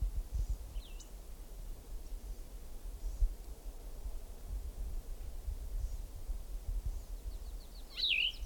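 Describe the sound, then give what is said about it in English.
Faint bird calls in the distance, two brief high chirps, one near the start and one near the end, over a steady low rumble of background noise. “another bird in distance”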